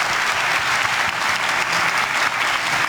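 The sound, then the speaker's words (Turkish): Loud, dense applause fills the hall at Erdoğan's press conference after the NATO leaders' summit. The clapping is continuous and steady throughout, with no voices over it. “Başkan Recep Tayyip Erdoğan NATO Liderler Zirvesi sonrası düzenlediği basın toplantısında gazetecilerin sorularına verdiği esprili yanıtlarla salonda uzun süre alkışlandı.”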